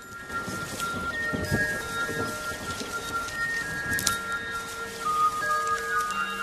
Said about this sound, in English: It's raining, and water drips from a bare branch.